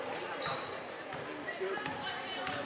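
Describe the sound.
Basketball dribbling on a court during a girls' high school game between Holly Pond and Falkville, faint, quick bounces under a commentator's steady play-by-play voice.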